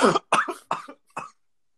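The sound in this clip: Coughing from someone who swallowed something the wrong way: four sharp, throaty bursts in quick succession, the last one shorter and weaker, with no talking.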